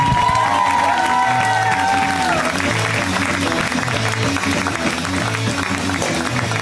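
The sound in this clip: An audience applauds a comedian at a stand-up show with dense, steady clapping that stays loud and even throughout, with a few voices rising from the crowd near the start.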